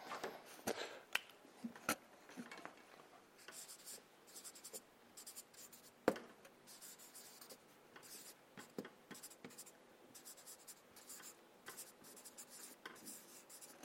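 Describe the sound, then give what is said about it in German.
Pen scratching across paper as notes are written down, a quiet run of many short strokes and scribbles with one sharper tap near the middle, with no voices. “Schreiben wir das vielleicht mal auf.”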